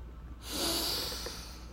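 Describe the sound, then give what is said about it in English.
A single deep inhalation during a guided breathing exercise, a soft airy hiss that swells, holds steady and slowly fades. “deep breath out, deep breath in,”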